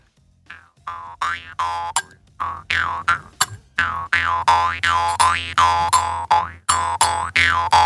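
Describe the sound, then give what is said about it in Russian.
A jaw harp (vargan) is played in a rapid, rhythmic run of twanging boings over a steady low drone, with bright overtones sweeping up and down like changing vowels. “Ну попробуй на варгане-то, сварганить что-нибудь.”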